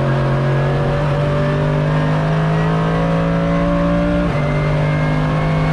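An eight-cylinder car engine revving hard through a six-speed gearbox. The loud, buzzing note climbs steadily for several seconds, then drops abruptly once at a gear change and carries on, with no voices.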